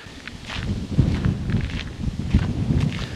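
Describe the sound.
Footsteps crunch along a gravel path on top of a dike. The uneven but steady stream of gritty steps is fairly loud, with no voices.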